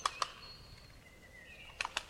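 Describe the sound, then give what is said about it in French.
A wood pigeon claps its wings, making faint, sharp dry claps: two single claps near the start, then a quicker cluster of several at the end over a quiet background. “Et bah le bon gros pigeon là, il peut également communiquer en claquant ses ailes.”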